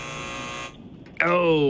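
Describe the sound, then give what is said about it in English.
A quiz-show buzzer gives a steady, harsh harmonic buzz for under a second. After a short pause, a brief voiced sound follows. “Buzzer.”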